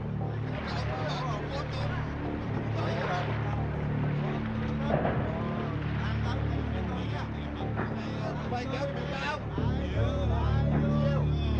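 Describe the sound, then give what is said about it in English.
A turbocharged 650-horsepower Detroit diesel engine drones steadily aboard an assault raft. Its low, constant rumble runs for the whole stretch beneath people talking. “The Detroit diesel, turbocharged, 650 horsepower. We can hit 21 knots, we have to.”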